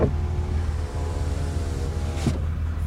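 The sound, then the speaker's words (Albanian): A Mercedes-AMG G63 runs with a deep, steady engine rumble that holds an even drone without any clear revving, and no talk is heard over it. “Mercedes G6.3 AMG. Dëgjoja çfarë zhurmë ka, dëgjoja.”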